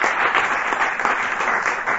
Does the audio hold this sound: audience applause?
yes